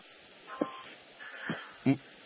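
Faint telephone keypad tones as a phone is dialled to call someone back: a few short, separate beeps spaced apart, quiet against a low background hiss.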